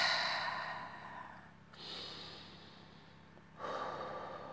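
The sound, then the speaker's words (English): Deep breathing: a few long, airy breaths drawn and let out in turn, each a broad hiss of air of moderate loudness, heard alone without talk. “So let me take a deep breath.”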